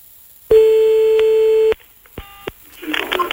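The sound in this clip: A telephone line tone sounds while calling someone back: one long, steady, high beep, then a shorter beep of the same pitch, after which voices begin talking.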